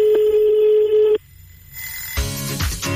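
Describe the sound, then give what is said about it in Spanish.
Telephone ringback tone on an outgoing call to a listener: one steady, loud, pure-toned ring lasting about a second, followed by a quiet pause and then a burst of mixed noise. “estamos llamando a otro oyente”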